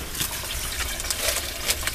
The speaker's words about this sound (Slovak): Zastavím sa tu na chvíľu pri tomto žblnkotavom zvuku